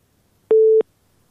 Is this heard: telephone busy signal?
yes